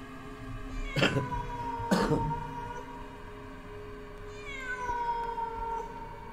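A stray cat meows several times in drawn-out, plaintive cries, with two sharper bursts early on, over a steady tonal background.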